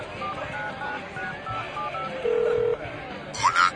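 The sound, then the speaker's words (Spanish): A short electronic key tone from dialing a mobile phone number, with a brief chirping beep near the end, heard over a low murmur of background voices. “Está, lo voy a llamar al celular.”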